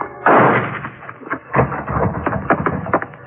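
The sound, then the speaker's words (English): Gunshots fired inside a low barn-like building at the rear of a property: one loud, sharp blast opens, followed by several weaker booming reports at uneven intervals, each with a rumbling tail. “The shots came from a low barn-like building at the rear of the property, and I wasted no time getting over there to see if Pedro's prophecy had already been fulfilled.”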